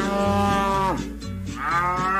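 Cattle mooing during milking on a farm: a loud, deep, harmonic lowing that dips and breaks briefly midway, then swells again with a rising call, with no voices over it.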